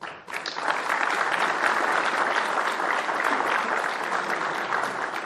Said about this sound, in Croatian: Zamolit ću za još jedan aplauz i čestitke za dobitnike plakete 17. septembar.